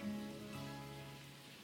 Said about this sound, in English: of listening to the rain. Rain has such a wonderful message for us.